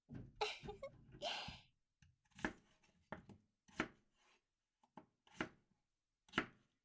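A knife chops potatoes into large pieces on a board: a quick cluster of cuts, then a string of sharp, irregular chops with short pauses, all fairly faint.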